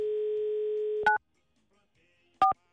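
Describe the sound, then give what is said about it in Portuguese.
A telephone dial tone hums steadily for about a second while a call to a pharmacy is placed, then two brief dual-tone keypad beeps sound, separated by silence. “Vamos ligar, peraí. Deixa eu ver aqui, deixa eu ver o telefone.”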